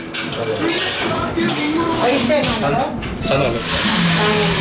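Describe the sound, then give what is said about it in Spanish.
Cups and cutlery clink in a café in Vitoria where a machine-made decaf coffee is served. Light chinks and rattles sit under a steady murmur of overlapping voices and chatter. “Un descafeinado crema de máquina. Cafetería en Vitoria.”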